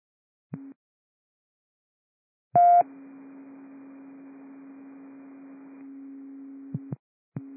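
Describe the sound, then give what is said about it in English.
Radio test tones on a station channel: a brief low tone, then a loud, harsh burst leading into a long steady low tone that holds for about four seconds with a faint hiss over it, then a final short tone. “Give us that test tone. Copy, stand by for test tones.”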